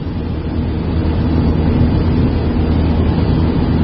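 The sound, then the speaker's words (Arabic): Steady car noise: a loud, continuous low engine and road rumble with a faint hiss above it, unchanging throughout, with no talk. “معلش هو الصوت صوت السيارة فسامحونا”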